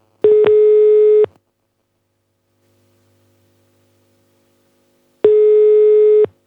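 Telephone ringback tone heard while calling someone: two loud, steady electronic beeps, each about a second long, separated by a long silent pause.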